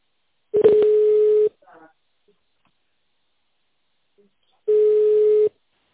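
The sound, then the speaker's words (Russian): Two long telephone keypad tones, as when dialing an extension number, each a steady electronic beep lasting about a second, separated by a few seconds of near silence. “Пожалуйста, наберите добавочный номер сотрудником и...”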